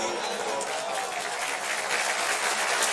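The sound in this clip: Audience clapping hands, a dense and continuous wash of applause that holds steady and loud for the whole span without breaks.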